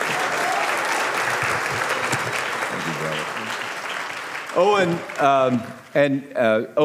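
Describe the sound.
Audience applause welcoming a guest at First Norfolk: a dense, steady wash of clapping that lasts about four and a half seconds, then fades as a person starts talking over the tail end.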